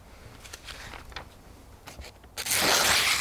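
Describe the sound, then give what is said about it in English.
A freshly sharpened knife blade cuts through newspaper: a few faint papery rasps, then a louder, longer slicing rustle near the end. “I use this newspaper to test how sharp the new edge is after I've sharpened the blade. I look for a nice, clean cut with no sort of jagged edges in the newspaper”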